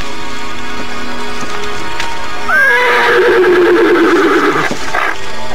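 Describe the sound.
A restless horse refusing to move gives one loud whinny in the second half. It starts high and drops into a shaky, vibrating tail over a constant background hiss.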